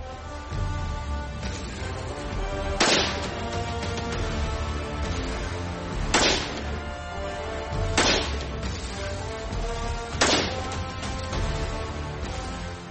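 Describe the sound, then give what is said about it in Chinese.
A gun fired without a suppressor: four sharp, loud cracks at uneven intervals over steady background music. “所以我们先在不安消音器的情况下进行射击。”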